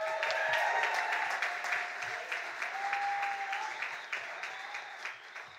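Audience applause at a science comedy debate event: dense, steady clapping from a crowd that holds fairly even and eases off slightly toward the end.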